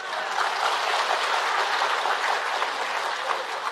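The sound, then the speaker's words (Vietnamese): Audience applause during a Buddhist dharma talk: an even, moderately quiet patter of clapping lasts the whole clip without clear peaks. “Vỗ tay này nghi ngờ quá vậy.”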